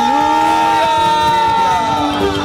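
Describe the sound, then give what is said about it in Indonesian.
A church audience claps and cheers during a worship service. The loud, continuous crowd noise carries over steady, sustained musical tones. “boleh lebih semangat lagi, tepuk tangannya bagi Tuhan Yesus.”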